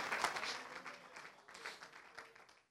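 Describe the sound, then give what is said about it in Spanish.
Applause of praise from a church audience, a short, faint patter of many hands that swells briefly and then thins out and fades away. “Dele ese aplauso de alabanza al Señor.”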